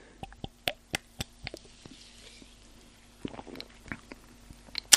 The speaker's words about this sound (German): wir machen jetzt dieses Getränk hier ASMR-mäßig zusammen auf. Ah, sprudelige Zuckergetränke im Studio, super.